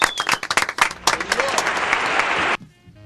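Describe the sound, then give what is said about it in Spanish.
Brisk applause with voices calling out over the clapping, sustained and fairly loud, then cutting off abruptly near the end. “Un fuerte aplauso, volvió. Vamos, bravo.”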